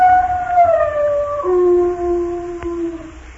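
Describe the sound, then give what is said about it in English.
A dog howls as if singing, one long, drawn-out wavering note that slides downward in pitch, with a brief sharp click near the end. “the dog thought that he had a very fine singing voice. He didn't know that to real people his singing voice would sound like this.”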